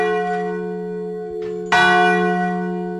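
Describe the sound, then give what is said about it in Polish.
Large bronze bell placed underground tolling, its deep, humming ring sustained from the start before one strong fresh strike renews it and lets it decay slowly. “Słyszę ten dzwon, wielki spiżowy dzwon, który jest umieszczony pod ziemią. Jak on zaczyna bić”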